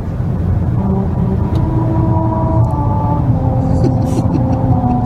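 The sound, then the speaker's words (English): A car drives over a musical rumble strip on a stretch of Route 66 in New Mexico. A steady low road rumble carries humming tones that shift pitch a few times, continuous and fairly loud throughout. “it's driving on the Rumble Strip.”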